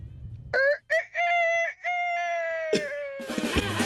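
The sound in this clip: A person's voice imitates a rooster crowing, with a few short clipped calls followed by a long, drawn-out tonal crow that slowly sinks in pitch and ends in a rough, noisy burst.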